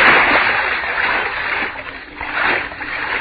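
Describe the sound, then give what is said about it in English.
Splashing of someone swimming in water in the dark: a steady, loud wash of churning water noise that swells twice, with no voices over it. “Swim. I can swim. Swim in the dark. Away from... What am I swimming in?”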